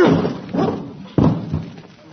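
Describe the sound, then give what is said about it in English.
People throwing themselves against a locked door: a few heavy, dull thuds spaced roughly half a second apart, each with a short rough tail. “Why would anybody lock a door in broad daylight? All we have to do is throw ourselves against it.”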